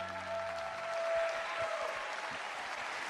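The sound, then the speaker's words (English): An audience at a church service applauds to welcome a speaker to the stage, with dense, steady clapping that stays even throughout. “I want you to put your hands together and welcome David Nasser to the stage.”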